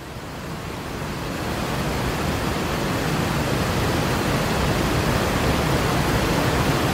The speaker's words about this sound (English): Loud and powerful, right? Really loud and powerful, like rushing water, right? So it kind of sounds like this.